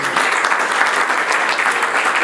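An audience applauds at a provincial library's 20th anniversary celebration, with loud, dense and even clapping sustained without a break for a couple of seconds.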